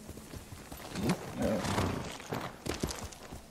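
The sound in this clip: Horse hooves clip-clopping in a video game, a steady run of hoofbeats with a few heavier thuds as the horse moves along.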